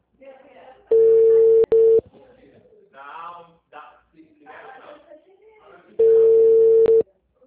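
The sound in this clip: Outgoing telephone call ringing tone: two long, steady mid-pitched tones about five seconds apart, the first briefly broken, with people talking quietly between them.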